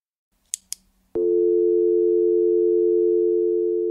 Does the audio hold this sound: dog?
no